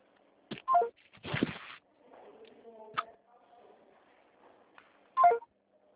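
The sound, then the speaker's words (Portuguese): A touch-tone phone dials a toll-free 0800 number. Short, sharp tone bursts sound at the start and near the end, with rustling handling noise and faint tonal sounds in between. “Deixa eu ligar para ver.”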